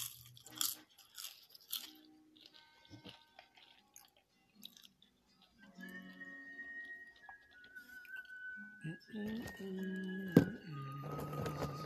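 Crunching and chewing of popcorn and corn nuts: many short, crisp bites and munches, mostly faint, separated by quiet gaps, with one sharper crunch near the end.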